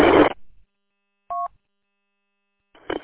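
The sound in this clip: A single short telephone keypad dialing tone sounds as a clear, steady dual-tone beep, set between brief bursts of other noise at the start and end.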